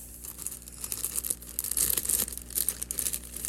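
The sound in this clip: Packaging being cut and torn open to free a large item with a big gear: loud, irregular crackling and crinkling bursts that continue throughout, with no talking.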